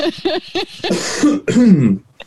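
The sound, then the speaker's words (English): Throat clearing thick with phlegm, said to come from eating cheese: a few short voiced grunts followed by two longer, harsh, gravelly rasps, loud and close. “Ah, excuse me. That's phlegm from cheese, I promise.”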